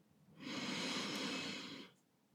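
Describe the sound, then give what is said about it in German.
One deep breath in during a breathing exercise, a steady, airy rush that lasts about one and a half seconds and then stops, fairly soft and alone. “ein letztes Mal einatmen”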